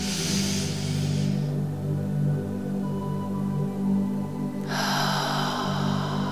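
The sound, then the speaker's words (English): A deep inhale through the nose comes as a soft rush of breathy air. A hiss fades at the start and another swells near the end, both over a steady low drone. “Hold it gently. And exhale slowly through your mouth. Again, inhale.”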